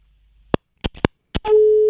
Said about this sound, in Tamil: Okay, line cut ஆயிடுச்சு.